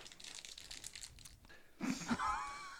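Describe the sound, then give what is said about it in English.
Crinkly plastic wrapper of a scorpion lollipop being unwrapped: a low rustle that swells into a louder, crackling, crunchy burst of plastic toward the end. “This thing is wrapped like they're worried the scorpion's going to escape.”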